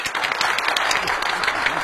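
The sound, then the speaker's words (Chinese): Studio audience applause welcoming a police officer guest onto a TV program: brisk, dense clapping at a steady, even level for about two seconds. “大家鼓掌欢迎。”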